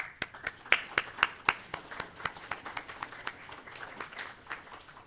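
Faint, sparse clapping from a small audience at a City Club gathering greets its new president, with many separate claps spaced fairly evenly and a few stronger ones in the middle.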